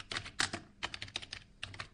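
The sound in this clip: Typing on a computer keyboard: quiet, irregular key clicks in short bursts with brief pauses between them.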